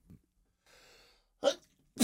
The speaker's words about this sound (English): I apologize. I got the sneezes.